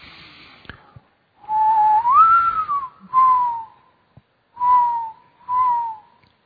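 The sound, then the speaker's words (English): A person whistles an imitation of a mourning dove's call: one long, soft cooing note that rises in the middle, then three shorter, steady coos with brief pauses between them. “Anybody know what type of dove that is? Yes. That's a mourning dove.”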